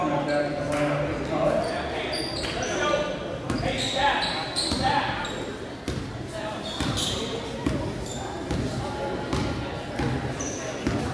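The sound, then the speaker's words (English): Basketball being dribbled on a gym floor during a high school game, with dull bounces under steady crowd noise and talk. “just kind of patiently dribbling it down”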